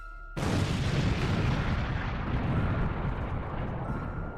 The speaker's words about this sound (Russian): Прогремел взрыв. Маленький домик завибрировал.